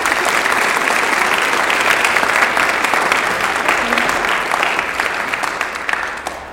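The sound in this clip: Audience applause welcoming a guest speaker to the stage at a faith stories event: a dense, sustained wash of clapping that stays steady throughout and tapers slightly at the very end.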